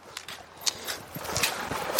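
Footsteps of Nordic walking in deep sand on a beach: many soft, crunching steps in a steady, regular rhythm, fairly faint, with occasional brighter scuffs.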